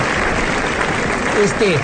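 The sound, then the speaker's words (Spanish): Audience applause for a reader about to start, a steady dense wash of clapping throughout, with voices rising over it near the end. “O denle a ustedes un aplauso a Torongo, porque ya se decidió que va a leer.”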